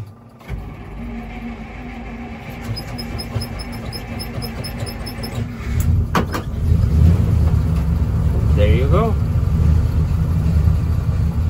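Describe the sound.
A carbureted car engine starts after the gas pedal is pumped. A quiet low hum gives way to a sudden start, and the engine settles into a loud, steady, low rumbling idle with a person talking over it.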